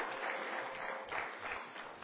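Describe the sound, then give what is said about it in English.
Applause from a church audience: a steady wash of many hands clapping for about two seconds, moderately loud and even throughout, with no talk over it. “Yeah, no, you clap for that.”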